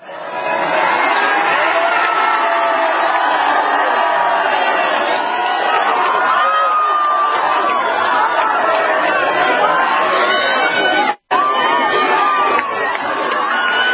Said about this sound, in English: Here's Marine Le Pen being mobbed by her youthful supporters.